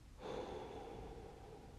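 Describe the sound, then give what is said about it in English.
A single soft, drawn-out breath is inhaled, quiet and steady, with no talking. “stop. Breathe. Inhale.”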